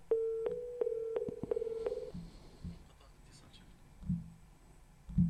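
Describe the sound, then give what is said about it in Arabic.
A phone call cuts off into a busy signal: a quick run of short, even, mid-pitched beeps, then quieter scattered sounds. “قطع اتصال”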